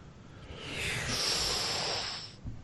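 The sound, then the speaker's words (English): A deep breath serves as a transition noise: a single airy, hissing inhale that swells gradually, holds, and fades out, heard alone. “Whoa. Porg. Was that your deep breath. Your transition noise?”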